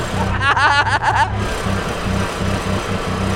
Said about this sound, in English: I think we hit the rev limiter!